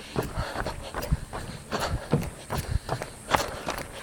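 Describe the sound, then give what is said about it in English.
Footsteps of a woman walking fast down a trail, a quick, regular run of light, soft steps that stay fairly faint and steady for the few seconds heard. “There's a rapid walker making her way down the trail with a smile on her”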